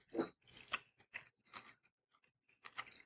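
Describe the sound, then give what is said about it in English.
Someone chews a burger seasoned with olive oil and Lowry's seasoning, producing a series of soft, crunchy, wet bites and chews, quiet and separated by short pauses. “Let's go ahead and taste this. Try it with the wine. And this burger is actually a pretty good burger.”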